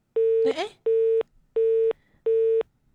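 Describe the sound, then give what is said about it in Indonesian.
A busy tone follows a dropped telephone call: a steady, mid-pitched electronic beep repeats in even on-off pulses. Four full beeps sound at a regular rhythm, and a fifth begins at the very end. “Terputus ya teleponnya.”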